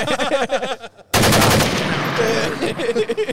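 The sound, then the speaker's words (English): Gunshots as a sound effect: a loud, dense burst of rapid gunfire lasting over a second, set between stretches of talking. “Hey, you better hit the shots fired.”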